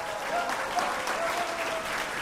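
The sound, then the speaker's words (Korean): An audience applauds at the award ceremony of a student unification debate contest. Steady, even clapping from many hands runs through the whole clip at a moderate level, with no voices over it. “통일 공간 대토론회 시상식을 시작하겠습니다. 박수 주세요.”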